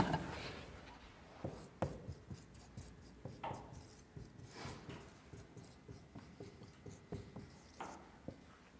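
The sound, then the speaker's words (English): Pen writing with a different colored pen over earlier writing: quiet, scratchy strokes in an irregular, continuous run, many short scrapes and taps with no voices. “I'm going to use a different color, because then I can write over the top.”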